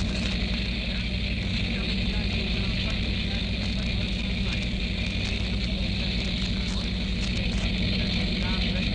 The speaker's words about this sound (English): perched majestically on the tractor that's towing the new sound truck. They're getting closer now, and as they pass